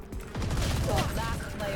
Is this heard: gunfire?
yes